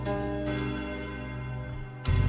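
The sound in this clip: A deep bell tolls in a few strikes, each with long, sustained ringing overtones. The last strike comes near the end and is louder. No voices are heard.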